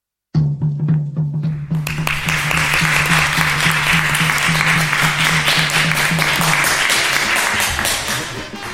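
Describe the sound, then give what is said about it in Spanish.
Audience applause breaks out at a radio workshop event after a short low steady tone, then settles into a loud, dense wash of clapping that holds steady and tapers slightly at the end. “un fuerte aplauso que ya han recibido para Radio Cacharro”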